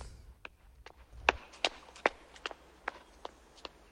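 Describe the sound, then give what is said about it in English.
Footsteps of a young woman jogging down the middle of a country lane on a misty morning: about nine faint, evenly spaced steps at a steady running pace. “On a misty morning, a young woman jogs down the middle of a country lane.”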